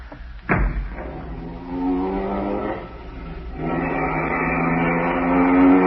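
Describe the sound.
A taxi engine roars as the car drives off, opening with a sudden burst followed by a steady, rumbling drone that grows slightly louder toward the end.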